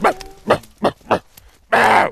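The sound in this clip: A man's voice imitates the barking call of a roe deer buck on a hunt: four short, gruff, hoarse barks at an even pace, then one longer, louder rasping bark.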